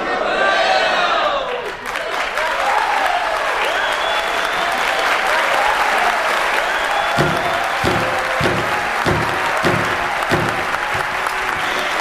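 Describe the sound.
A crowd bursts into loud applause and cheering after a rousing political speech about the motherland. Voices rise over the clapping, which later settles into a rhythmic beat.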